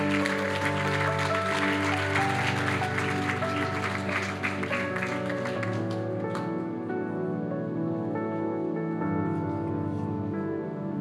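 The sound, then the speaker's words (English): Clapping from an audience giving a couple a hand at a church service, dense and steady over sustained tonal music, thinning out after about six seconds while the music carries on. “Can we give the Clausens a hand this morning?”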